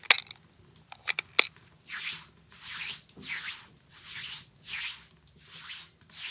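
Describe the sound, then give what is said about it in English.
Wax being rubbed into shoes to protect them: a few sharp clicks at first, then a steady run of soft, rhythmic swishing strokes, fairly faint, with no voices. “the cleaner produces a tin of wax and begins to rub it into your shoes to protect them.”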